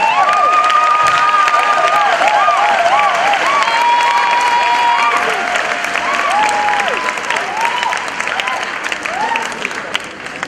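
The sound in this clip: A church audience applauds and cheers for Jesus Christ, a steady wash of loud clapping with whoops and raised voices rising and falling over it throughout.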